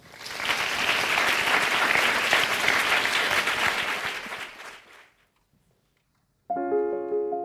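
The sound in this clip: Audience applause welcoming a singer to the stage, a dense, steady clatter of many hands that holds for about five seconds, then fades into a short silence before a sustained musical tone begins.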